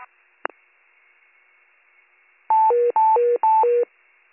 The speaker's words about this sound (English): Warren County with the 1730 Monday night evacuation tones. Repeating Warren County with the 1730 Monday night Mayday evacuation tones.